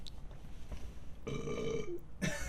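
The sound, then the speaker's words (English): A person burps while sampling something with a strong lime smell: a drawn-out, voiced belch of just under a second over steady low background noise. “I thought that was gonna be more than a burp”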